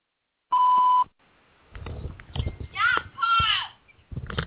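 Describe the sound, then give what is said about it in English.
An answering machine's beep is a single steady, high tone of about half a second, heard alone before a voice starts talking. “Message after the tone.”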